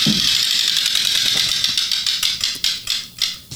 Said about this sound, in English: Hey, Coach, give that reel a spin.